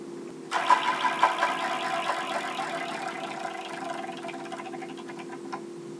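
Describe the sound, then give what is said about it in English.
A prize wheel being spun produces a rapid clatter of ticks that gradually thins out and slows. It sits faintly over a steady low hum. “Let's go back to the Wheel of Destiny. Yeah, and see who's next. Someone else want to spin it? I'll take a spin.”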